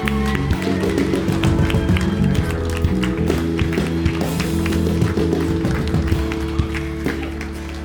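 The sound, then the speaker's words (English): Loud, sustained audience applause as a pastor is welcomed onto the stage, many sharp claps blending into a dense patter over steady low sustained tones for the whole stretch. “How about we just jump to our feet? Let's just put our hands together and welcome up Pastor Daz Chettle.”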